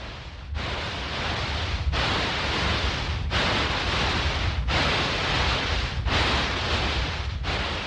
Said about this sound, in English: People with tinnitus hear a sound like this all the time.